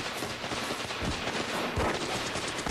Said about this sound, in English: Dude's shooting through the wall. Members fire quarter-sized holes through the wall and into this agent's shoulder.